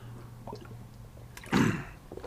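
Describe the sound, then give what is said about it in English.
A person takes a swig of water: a few soft mouth and lip sounds, then one short, louder gulping swallow, with a faint low hum running beneath. “excuse me, a swig of water right there.”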